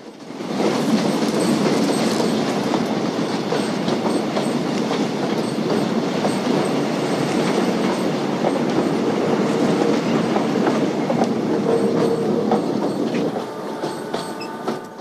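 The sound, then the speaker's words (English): A freight train chugs through the Arizona landscape in a loud, continuous rumble. Rapid clickety-clack of wheels on rails and brief thin squeals run through it, holding steady throughout before easing slightly at the end. “The freight train chugs through the Arizona landscape.”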